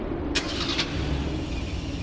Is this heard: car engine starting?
yes